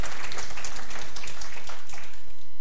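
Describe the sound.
An audience clapping hands during a church service, a loud, dense wash of many hands beating together that holds steady throughout.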